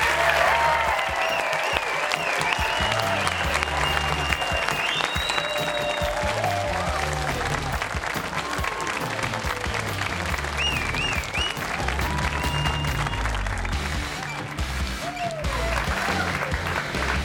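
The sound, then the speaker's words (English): A studio audience gives a standing ovation to a returning guest, with continuous loud applause mixed with whistles and cheers that barely dips. “As fans are taking, not everyone gets a standing ovation coming in the building. That was pretty good.”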